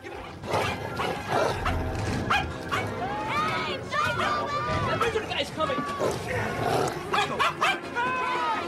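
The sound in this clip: A frightened dog barks and yelps, giving a dense run of high, whining yips and sharp barks that rise and fall in pitch, loud and continuous over other busy sound.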